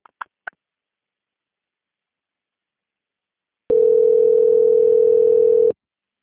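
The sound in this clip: Telephone tone during a call transfer: three short clicks, then a silent gap, then one steady, pure mid-pitched tone lasting about two seconds before cutting off abruptly.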